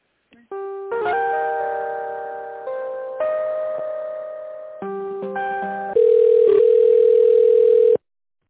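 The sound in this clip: Telephone line tones while a call is being transferred: steady electronic tones that change pitch in steps, ending with a louder sustained tone that stops abruptly.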